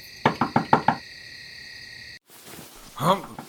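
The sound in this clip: Five quick, evenly spaced knocks on a door, sharp and loud, as someone urgently seeks a doctor. A short silence follows, and then a voice is heard.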